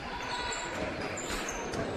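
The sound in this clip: A basketball is dribbled on court during a women's game. Any bounces are faint and blend into a steady wash of crowd noise.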